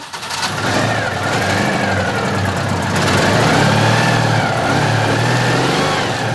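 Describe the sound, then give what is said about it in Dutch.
Citroën 2CV engine, a car left standing unused for a while, starts and runs. It catches at once and settles into a steady, buzzy mid-pitched running note that swells slightly partway through, with no voices. “Er staan verschillende 2PK's voor de deur. En u hebt er een die er al een tijdje stilstaat, even gestart. En het werkte direct.”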